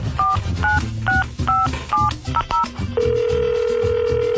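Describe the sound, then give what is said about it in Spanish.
Touch-tone dialing beeps sound in a quick series as a telephone call is placed, then a steady ringing tone starts on the line while the call rings out. “¿Este es el bueno? Vale, pues vamos a marcarle. Recuerdan, raza, que tienen que contestar,”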